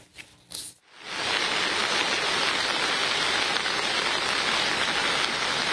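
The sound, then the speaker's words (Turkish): Heavy rain downpour during severe flooding in Sakarya, Turkey. After a second of brief, scattered sounds, the rain sets in as a dense, loud, hissing roar that continues steady and unbroken to the end. “Sağanak her geçen dakika etkisini artırdı. Caddeler, sokaklar göle döndü.”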